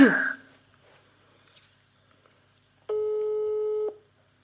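A telephone call tone sounds after call is pressed: a single steady electronic tone lasting about a second, preceded by a few faint clicks.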